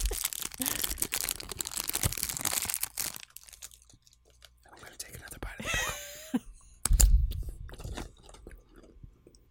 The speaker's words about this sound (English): Now I'm just unwrapping a candy.